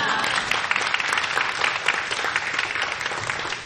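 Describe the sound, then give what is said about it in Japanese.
A church audience gives a loud round of applause to welcome a speaker. The dense, steady clapping continues without a break for the whole clip. “それではハレルヤと大きい拍手でお迎えしましょう。”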